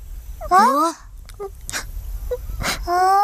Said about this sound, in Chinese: 我哪有，他自己哭的。